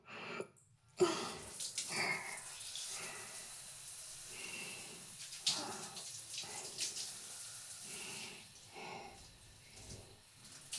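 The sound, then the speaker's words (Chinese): Running water pours steadily to rinse a man's hair during a hair wash, a continuous hissing stream whose level swells and dips slightly as it splashes, with no clear talk over it. “先冲水哦，眼睛闭起来，要冲喽。”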